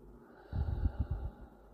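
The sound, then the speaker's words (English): Deep breathing out during a relaxation exercise: a short run of soft, breathy puffs with low rumble, lasting under a second, fairly faint, with no talking. “Deep breaths in. Hold. Deep breaths out.”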